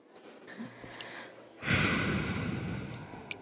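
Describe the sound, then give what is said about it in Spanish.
A sudden inhalation, then a held breath, while threading a needle for sewing. A breathy rush starts after a quiet stretch and trails on softly, faint and without talk. “Respiro. Contengo el aire.”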